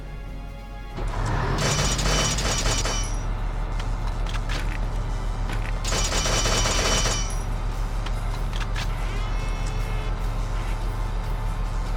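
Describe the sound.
Machine gun fire from a war video game comes in two loud, crackling bursts over a steady low engine rumble, which fits the tank being driven in the game.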